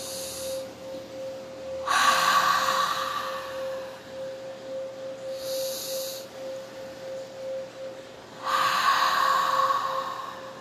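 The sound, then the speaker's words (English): Deep, slow breathing in a guided meditation: a few long, airy breaths drawn in and let out, with quiet gaps between them, heard alone over a steady humming tone. “Take a deep, deep breath.”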